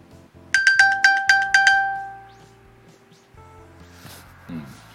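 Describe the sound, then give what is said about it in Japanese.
iPhone finding sound triggered from a linked Apple Watch: a quick run of bright, ringing chime tones that end in a lingering tone and fade away, followed by quieter faint sounds. “Apple Watch からね、Apple Watch とリンクしてるからね、Apple Watch からサウンドを鳴らすっていうのができるんでね、これもね、ちょっと聞いてもらいますね。”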